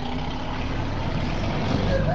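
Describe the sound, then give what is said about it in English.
A fire truck's engine pulling out of a fire station gives a steady, low, broad rumble that holds evenly throughout. “A firefighter walks out of a fire station just as a truck is about to leave.”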